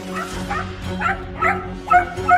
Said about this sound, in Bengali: হিংস্রভাবে ঘেউ ঘেউ করে উঠল একটা সাদা রঙের কুকুর স্পিডস প্রজাতি